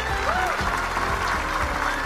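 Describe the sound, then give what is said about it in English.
Clapping applause for Chopper, a steady, dense patter of many hands that holds at an even level for about two seconds. “Shut up! I don't need your clapping, you jerks!”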